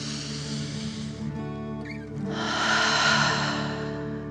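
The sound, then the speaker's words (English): Deep dragon-style breathing during a guided children's relaxation exercise: one long airy inhale followed by a fuller, louder exhale, soft and breathy over gentle steady background music. “Keep your hands on your heart, deep dragon breath, in and out.”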